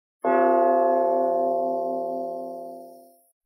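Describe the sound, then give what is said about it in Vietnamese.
A bell-like clang from a collision against a giant mountain: one sharp strike that rings out as a rich, steady metallic tone and slowly fades over about three seconds, alone. “Một tiếng va chạm như tiếng chuông vang lên.”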